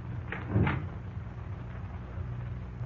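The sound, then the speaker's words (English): A door being opened: a brief, muffled knock and creak, then only a low, quiet background hush. “Well, are you going to open it, Stephen? It's unlocked. Come in.”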